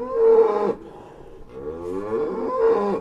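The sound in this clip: A dairy cow moos mournfully, her calf taken from her days before. Two long, loud, drawn-out moos are joined by a quieter, wavering lowing between them, with no talk.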